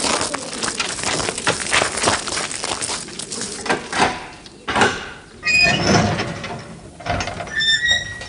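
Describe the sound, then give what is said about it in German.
Metallic clanking and scraping as the steel lock on an old mine tunnel is opened, with a string of ratcheting knocks and a few brief ringing metallic squeals toward the end. “Das Stahlschloss, das den alten Stollen gegen Eindringlinge schützen soll, lässt sich verdächtig leicht öffnen.”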